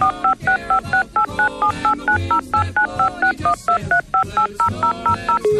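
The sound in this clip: Telephone keypad tones beep out a long number, many short, even dual-pitch beeps in a quick steady rhythm with brief gaps, loud and alone with no voices.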